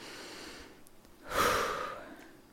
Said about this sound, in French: prendre trois grandes inspirations. Donc vous gonflez bien le ventre et vous soufflez pour relâcher un petit peu de manière globale.